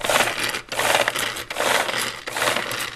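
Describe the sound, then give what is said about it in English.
Seed and chaff are whisked in a container with a modified whisk. The rattle comes in four loud, gritty bursts with short breaks between them, in a steady rhythm and without talk. “And so then we will take the seed and as you say, all the sort of chaff and all the rubbish, as it were, put it into that. And then we will whisk this.”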